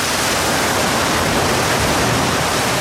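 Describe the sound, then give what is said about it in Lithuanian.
Heavy rain pours down suddenly in a steady, dense hiss that fills the whole clip, loud and unbroken with no voices. “Ir staiga prapliupo lyti.”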